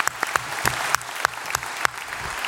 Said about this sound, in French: Ça s'applaudit.